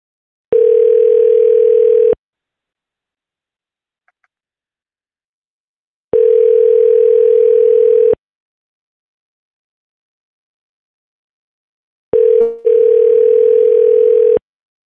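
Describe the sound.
Telephone tones while placing a call, three long steady electronic pulses of a couple of seconds each separated by silent gaps, with a brief click at the start of the last one.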